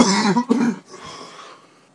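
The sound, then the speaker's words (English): Harsh coughing from a person who is ill: two strong, rough coughs in quick succession, followed by a quieter, breathy tail that fades out. “I do apologise, just had to pause while I coughed my guts up there.”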